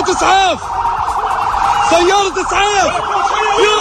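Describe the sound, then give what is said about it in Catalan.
Ambulance sirens wail through Gaza City minutes after an attack on an ambulance convoy at the gates of Shifa hospital. Several loud sirens overlap in a continuous, rising and falling whoop that repeats throughout. “Aquest és el so de la ciutat de Gaza a la tarda, minuts després que l'exèrcit d'Israel va atacar un comboi d'ambulàncies a les portes de l'hospital de Shifa”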